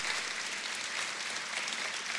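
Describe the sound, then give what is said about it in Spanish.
A church audience applauds together in a continuous, even rush of clapping hands. The applause holds at a moderate level without swelling or fading and has no distinct voices on top. “Pode aplaudir ao Senhor.”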